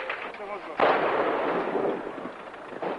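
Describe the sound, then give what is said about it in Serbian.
An explosion in a city street: a sudden broad boom that rolls on as a dense, sustained rumble, with a lesser burst near the end. “Nova eksplozija.”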